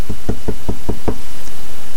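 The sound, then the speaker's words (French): Knocking on a car window: a quick, evenly spaced series of sharp knuckle raps on glass, loud and alone, followed by silence. “mais un quart d'heure plus tard, on frappe de nouveau à la vitre.”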